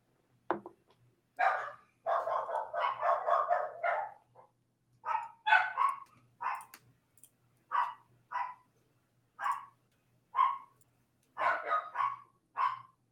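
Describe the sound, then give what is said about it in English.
Pet dogs barking in sharp bursts: a quick run of yapping barks, then many single or paired barks spaced out at irregular intervals, fairly loud against a quiet background. “My puppos need to stop barking”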